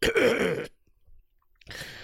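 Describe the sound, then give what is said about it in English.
A person clears their throat with a short, rough burst, then a quiet pause and a second brief, gravelly sound. “let me clear my throat”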